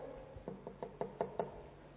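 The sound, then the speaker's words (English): Knuckles rap on a door on the day of a wedding in a quick, even series of sharp knocks that grow louder toward the end, then stop. “And he could go and knock on that door.”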